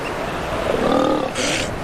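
Guttural roaring and grunting from huge elephant seals on a beach during the nursing season, some females still feeding pups. A continuous rough, rumbling roar swells near the middle and ends in a brief hissy burst.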